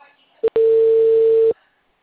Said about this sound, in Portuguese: Tô ligando pra lá pra ver se é.